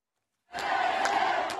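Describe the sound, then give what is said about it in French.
Kherson residents cheering Ukrainian troops after the Russian withdrawal: following a brief silence, a sustained roar of many voices starts abruptly and holds steady, marked by a few sharp bursts. “Sur cette vidéo partagée hier soir par le président ukrainien Volodymyr Zelensky, les forces armées ukrainiennes sont acclamées par les habitants de Kherson, quelques heures après le retrait des soldats russes.”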